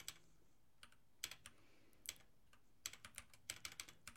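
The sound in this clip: Typing of a prompt for an AI model on a computer keyboard: irregular clusters of quick, light key clicks separated by short pauses, faint and alone.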